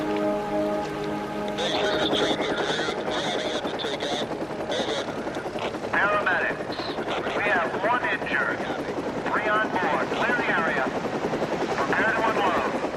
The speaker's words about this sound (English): The chopper flies low over the river.